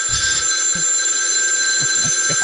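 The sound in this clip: A telephone rings in a loud, steady electronic tone that holds through the whole moment, with faint low thumps beneath and no talking.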